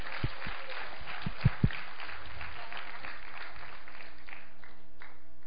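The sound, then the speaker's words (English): Audience applause welcoming a woman as she is handed the microphone at a church gathering, with a few low thumps at the start and then a dense patter of clapping that gradually thins and fades over several seconds. “You guys welcome her. Just give her a hand.”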